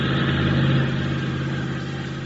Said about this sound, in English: start your motor